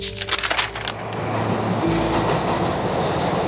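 A subway train runs through a metro station with a loud, continuous rumble that rattles unevenly at first and then settles into a steady roar.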